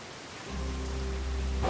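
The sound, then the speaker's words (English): Heavy rain pours in strong wind gusts. It is a dense, loud, steady hiss that swells in after a quieter first moment and stays constant to the end. “At Huey, rain pours as a strong wind gusts”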